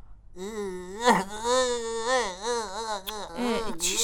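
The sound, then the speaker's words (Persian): A child cries in long, high, wavering wails that rise and fall, broken by a few sharp gasping catches and sobs. “چی شده جان خاله؟ چرا گریه میکنی ها؟”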